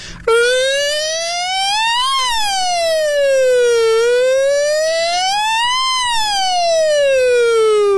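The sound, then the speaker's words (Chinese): A voice imitates a fire brigade siren: a loud, pure wailing tone rich in overtones that sweeps slowly up and down, peaking twice, and is heard alone without talk. “那个消防武警啊，他主要就是那个警笛的声音就是着火了嘛”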